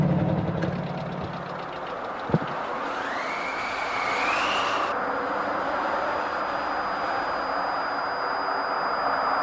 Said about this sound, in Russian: Включаю мотор.